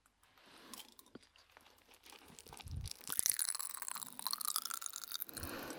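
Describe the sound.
Someone chews a large mouthful of ramune candy, with many crisp, irregular crunches and crackles. The chewing is quiet at first, then grows denser and busier.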